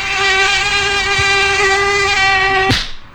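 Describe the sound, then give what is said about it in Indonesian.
Buzzing of an Aedes aegypti mosquito on a hot day: a loud, steady, high-pitched whine with a slightly wavering tone, cut off near the end by a brief sharp noise. “nyamuknya ganas banget sih siang-siang gini. Belang-belang lagi warnanya. Nah, itu dia. Nyamuk Aedes aegypti.”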